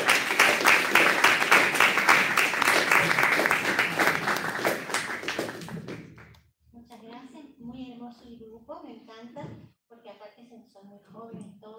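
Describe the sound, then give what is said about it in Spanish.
Loud, dense applause from an audience welcoming a female performer from a cathedral, sustained for about six seconds and fading out, after which a single voice begins speaking. “la recibimos con un muy fuerte aplauso a la hermana”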